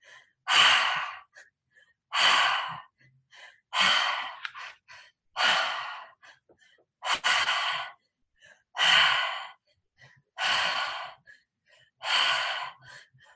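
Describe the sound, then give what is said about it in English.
Eight forceful breathing exhales during a breathwork exercise, evenly spaced about every second and a half to two seconds, each a loud breathy rush, with faint inhalations between them and no talking. “Breathe in, receive in the air. Nice, powerful exhales.”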